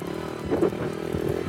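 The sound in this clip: Engine of a small vehicle running in a big empty arena as the driver struggles to get it into gear, a steady rough rumble with a brief louder surge midway and uneven revving throughout.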